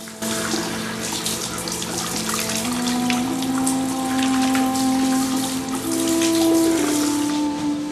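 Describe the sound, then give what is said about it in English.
Water runs from a sink tap in a Marine barracks in the early morning, a steady, fairly loud splashing rush that continues without pause as a hand is held under the stream. “switches on a tap at a sink. He holds his hand under the running water for a few moments before dousing his face.”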